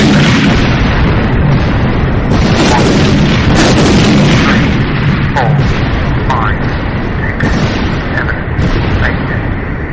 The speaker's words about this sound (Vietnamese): Nhưng một tiếng nổ lớn truyền ra từ máy bộ đàm tưởng như có thể vỡ cả máy.